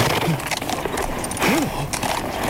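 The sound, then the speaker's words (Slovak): A horse, a stallion in a radio drama, with loud clattering hoofbeats that go on steadily throughout the short stretch. “Žerebec klesol na jedno koleno.”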